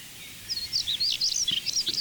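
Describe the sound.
A bird sings its rapid, short, sweet song from a perch, a quick run of many high twittering chirps over a faint low background.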